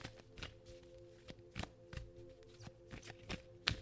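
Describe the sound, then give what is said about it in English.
Oracle cards being shuffled for a full moon reading: many soft, papery riffling taps and small bursts in an irregular rhythm, faint and without talking. “I'm going to start shuffling because I just did 5 deep breaths, so I'm not going to breathe again. But looking for 3 pop-out cards”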